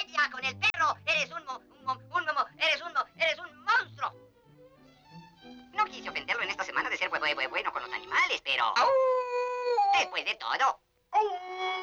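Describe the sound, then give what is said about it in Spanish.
A cartoon dog, voiced by a person, whimpers and lets out a drawn-out wavering howl. Spoken lines and chatter in a Spanish-dubbed animated short come before and around it. “Hola, perrito. Hola, perrito lindo.”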